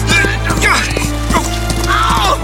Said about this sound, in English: Oh, whoa, horsey, whoa.